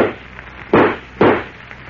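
Two sharp gunshots ring out in a radio drama as bullets are fired at Superman, each a loud, abrupt crack with a short decaying tail, spaced about half a second apart.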